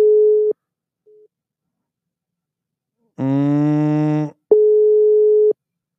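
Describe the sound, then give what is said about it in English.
An international telephone dial tone sounds as a call is placed: two steady, single-pitch beeps about a second long, with a lower, buzzy, harmonic-rich tone between them and silence in the gaps. “I hate these fucking international dial tones.”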